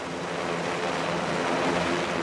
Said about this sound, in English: Big yellow helicopters transport crew members.